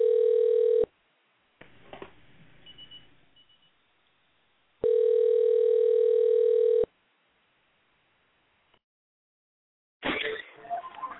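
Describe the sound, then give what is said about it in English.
Telephone tones from a call being placed to a guest: two long, steady buzzing tones separated by quiet gaps, then a short burst of clatter at the end. “Let's have our producers give him a call. I know he's expecting it from us”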